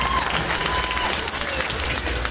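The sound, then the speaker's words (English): A comedy club audience claps at the end of a live stand-up show, a dense and steady roar of hands lasting about two seconds. “clap it up.”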